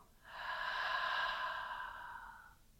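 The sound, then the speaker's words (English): One long, deep breath during a yoga meditation, a smooth airy rush that swells, holds and slowly fades over about two seconds, soft and alone in the quiet. “And then take another deep breath in. And then as inspired, exhale.”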